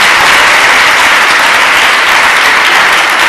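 Loud, vigorous applause at a worship gathering, a dense roar of many hands clapping together that stays at full strength without pause for the whole clip.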